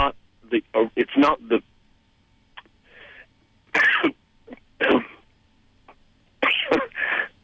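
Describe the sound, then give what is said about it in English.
A person coughs and clears their throat in a series of harsh, uneven bursts, some clustered closely together and others spaced apart by quiet gaps. “sorry about that. I love coughing on the radio.”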